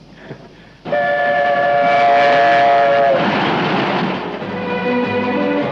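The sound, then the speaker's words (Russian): A military train carrying tanks and soldiers rushes past with a loud, sustained horn blast over heavy rolling rumble. The horn cuts off after about two seconds, and the rumble and clatter of the cars continue to the end. “Мимо пассажиров только прибывшего поезда проносится состав с танками и солдатами.”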